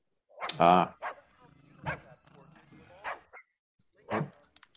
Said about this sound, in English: His trusty dog has alerted him of another trick-or-treater.